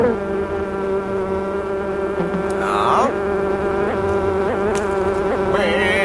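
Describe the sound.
Honey bees buzz at a school beekeeping club, a loud, dense drone of many wings holding a steady pitch, with a single short word spoken briefly over the hum.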